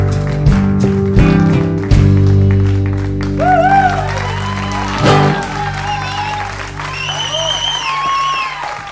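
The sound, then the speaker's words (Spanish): Applause from the audience at the end of a Spanish-language show, honoring the guests. Steady clapping runs throughout alongside voices and sustained tonal sounds. “Un aplauso inmenso a todos nuestros invitados de lujo que estuvimos hoy.”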